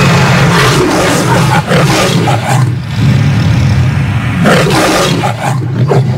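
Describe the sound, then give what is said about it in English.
Loud, rough roaring of a lion from a film studio's brand-new logo, continuous for several seconds and swelling in waves, with a brief dip partway through. “The brand new MGM lion sounds like this.”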